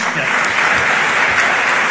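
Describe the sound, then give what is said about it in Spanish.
Audience applause after an oath of office at an Argentine swearing-in ceremony, a loud, dense, unbroken roar of clapping sustained from start to finish. “Ahí está, aplausos. Los aplausos los editamos, fueron muy, muy largos todos.”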